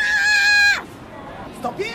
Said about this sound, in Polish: Oni krzyczą? Krzyczą bardzo głośno, do 101 decybeli. Nie słychać, ale jak wejdziemy tam z mikrofonem, to usłyszymy to